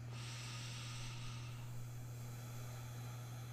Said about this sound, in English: Let's go ahead and take a deep breath in.